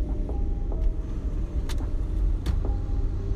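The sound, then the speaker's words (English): Continuous low road rumble from a car in traffic, steady throughout, with a few brief faint hisses and clicks rising above it. “Now, I am in traffic, so y'all, please forgive the background noise.”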